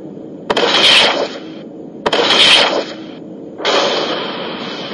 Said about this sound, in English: Heavy cluster-wide spread photon torpedoes primed and locked on center of enemy formation. Ready to launch on your command, Captain. Fire torpedoes.